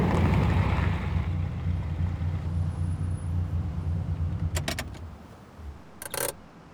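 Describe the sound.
A car drives on a road where traffic has just cleared, giving a steady low rumble that eases slightly over time, with a few brief, higher rustling or jingling noises near the end.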